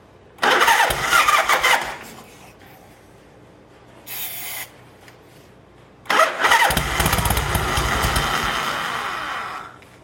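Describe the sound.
A motorcycle with a new battery and carburetor trouble cranks and fires in a rough, loud burst that dies, then makes a brief second attempt. Finally the engine catches and keeps running steadily.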